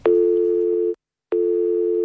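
Telephone line tone on a call to the hotline of Baku's passenger transport company: a steady, low-pitched beep lasting nearly a second, then a brief silence, then the same tone starting again.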